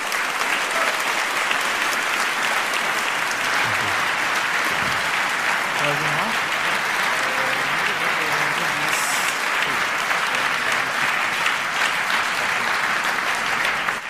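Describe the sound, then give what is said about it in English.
Loud, sustained audience applause welcoming Garry Kasparov on stage at a talk on hacking, power and propaganda, an even wall of clapping that continues unbroken for the whole stretch. “Kasparov has been a figurehead in the opposition of Putin's government. Please give him a warm welcome.”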